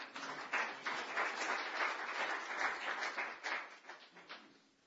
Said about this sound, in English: And maybe we could give him a little hand.